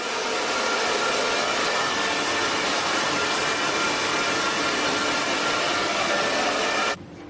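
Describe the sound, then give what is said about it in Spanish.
Hair dryer blowing as a nun dries her hair before a mirror in a convent cell: a loud, steady whooshing roar that holds without change, then cuts off abruptly near the end. “una monja se seca el pelo ante el espejo.”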